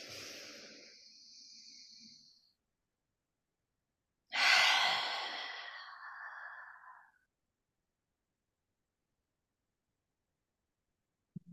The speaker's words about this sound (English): Anything you need to release, exhale it all out one more time.